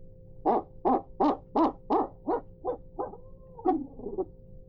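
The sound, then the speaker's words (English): Owl hooting blown on a turkey hunting locator call, an owl-scream imitation: a rapid run of about eight evenly spaced, loud hoots, followed by a ragged, trilling finish. “So I may just get out there in the morning, you know, after I hit the owl scream, I'll just,”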